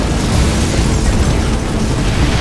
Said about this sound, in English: One of them put a stick of dynamite into the jamb of the express door. Then the three rode away quickly to avoid the blast.